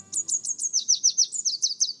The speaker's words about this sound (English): If you know how to distinguish it, the song of the red warbler is enough to tell you whether the morning is clear.